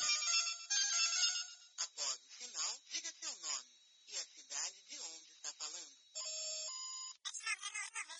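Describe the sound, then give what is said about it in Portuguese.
A mobile phone ringtone sounds for an incoming call: a loud, bright melodic tune with voice-like phrases that plays continuously for about eight seconds. “só um minuto que estão me ligando direto do Notícia quente”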